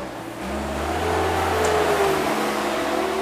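A front loader drives past outside, its engine a low, steady rumble that swells in the middle and eases slightly toward the end.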